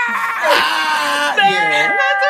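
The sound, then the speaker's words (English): A man's voice imitating the very long, wailing cry of a man from the TV show Intervention, a drawn-out quavering sob that bends up and down in pitch. “Did you ever see the YouTube video that was big for a minute where it's, like, the longest cry ever? And it was from Intervention. And, like, that man is like,”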